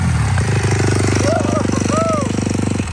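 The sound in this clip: A motocross factory race bike engine, ridden by a test rider and a podium finisher at Hangtown, idles with a rapid, steady, pulsing putter that holds for most of the moment, with faint talk over it.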